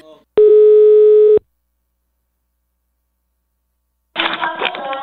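A telephone tone sounds as a call is placed: one loud, steady, even tone lasting about a second, then a stretch of silence before another, busier sound begins.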